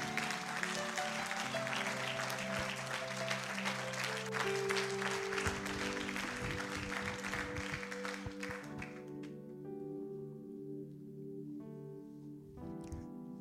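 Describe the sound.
Church audience applauding during a service: dense, steady clapping over sustained musical tones, the clapping thinning out in the last few seconds while the tones carry on.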